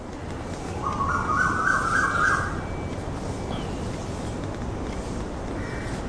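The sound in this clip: A bird calling: a raspy chattering burst lasting about two seconds over a constant low background hiss that continues afterward.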